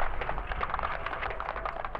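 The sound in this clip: Artillery gun fire in a War of the Worlds radio drama, aimed at the Martian tripods: a sustained, roaring rumble with rapid, rough bursts that stays at a steady loudness.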